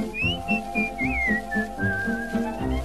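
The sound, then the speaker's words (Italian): Melodic whistling of a cheerful waltz tune in a 1941 Italian song recording: a clear, sustained line that glides between notes over a steady, pulsing band accompaniment. “Se a fischiettarlo si troverà”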